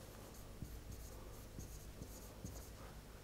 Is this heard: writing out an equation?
yes